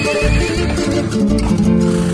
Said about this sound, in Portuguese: Era cavalo, era cavalo